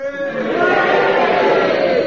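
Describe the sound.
Studio audience at a panel game cheering on cue, a sustained mass of voices shouting together that swells just after the start and stays loud and even.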